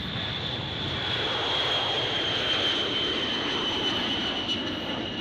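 A B-52 bomber takes off, its engines making a loud, steady roar with a thin high whine on top that holds throughout, with no break or clear change in level.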